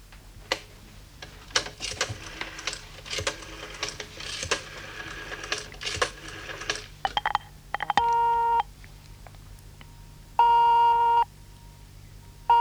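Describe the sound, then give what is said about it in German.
Telephone being dialed, then ringing on the line: several seconds of irregular clicking dial sounds, a short pause, then two separate long buzzing ring tones with a gap between them. No one answers and no voices are heard. “Also ich werde Bertram anrufen”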